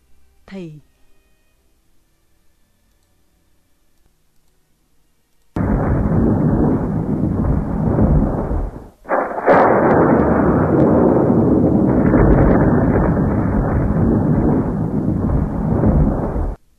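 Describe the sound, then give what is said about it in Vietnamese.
A thunderclap as lightning strikes a coconut tree during a sudden midday storm, splitting its crown and raising smoke: after a faint, quiet opening, a loud, sustained rumbling roar begins, with one brief dip partway through. “Một tiếng nổ long trời lở đất, cây dừa bị trời đánh tét ngọn ra thành ba miếng, khói bốc mù mịt.”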